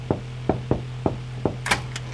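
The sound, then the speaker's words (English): Knocking on the door of a foreman's office: a series of sharp, hollow raps in an uneven rhythm, with a low steady hum running underneath. “As Melissa sat in the foreman's office looking over paperwork for any pertinent information, there was a knock on the door.”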